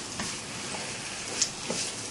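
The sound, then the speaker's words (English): Mushrooms being stirred in a cooking pot on a slow cooker, with a steady low sizzle and soft scraping strokes, plus a couple of brief clinks. “Mushroom. Okay. And stir it a little.”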